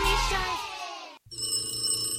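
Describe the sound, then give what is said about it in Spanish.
A telephone bell rings loudly and steadily in the second half, after a fading tone and a brief moment of silence. “¡Contesta el teléfono!”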